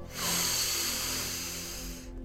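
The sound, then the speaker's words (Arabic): A long exhale in a deep breathing exercise: a single sustained, breathy hiss that starts abruptly, holds steady and fairly loud, then cuts off. “كل ما كتحس بهذا الستريس وكاع التوترات اللي كتحس بهم الداخل ديالك كيخرجوا مع كل تنفس مع كل زفير. لوغ نعاودو نديرو التنفس دابا.”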